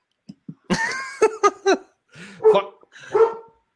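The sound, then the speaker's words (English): A dog barks in a quick series of sharp, loud barks: two soft yips first, then stronger bursts separated by short pauses. “That's my dog.”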